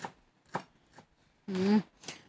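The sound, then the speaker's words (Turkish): A knife finely chops parsley with a few separate crisp strikes about half a second apart, plus one longer, louder burst among them. “Şöyle iyice bunu böyle minik minik doğruyorum.”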